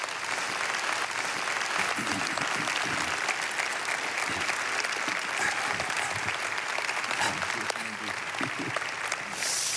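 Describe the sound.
An audience at a multi-campus gathering applauds to welcome a guest, a sustained, dense wash of clapping lasting about ten seconds with scattered sharper claps.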